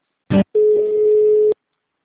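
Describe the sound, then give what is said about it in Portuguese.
During a bank card line's call transfer, a short electronic blip sounds, then a pause. A steady single-pitched telephone tone follows and holds clean for about a second before cutting off. “estamos transferindo sua ligação. Por favor, aguarde. Você será direcionado para a nossa central de cartões.”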